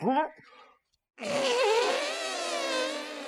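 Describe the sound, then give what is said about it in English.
A voice imitates a long fart for a creature in a tabletop role-playing game: a buzzy, wavering raspberry of about two seconds, after a short vocal sound and a brief pause. “and he farts. This biggest fart and purple gas kind of goes everywhere.”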